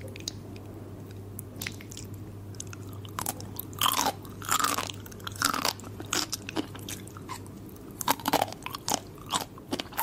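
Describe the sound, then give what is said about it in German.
Crunchy chips being eaten: many crisp bites and crackling crunches in an irregular rhythm, sparse at first and growing busier, over a constant low hum. “Jetzt kriegen Leute diese Tingles, wenn jemand Chips isst.”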